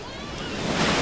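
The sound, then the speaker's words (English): Ocean surf breaks at a beach for body surfing, a short rushing roar of water that swells steadily louder and brighter as the wave crashes, with no voices. “Remember that? That's the sound of summer and body surfing.”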